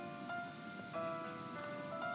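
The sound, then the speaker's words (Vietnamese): Water rushing like rain, a continuous hiss of pattering drops that holds steady throughout over faint sustained tones. “Nước chảy rào rào, giống như là đang mưa.”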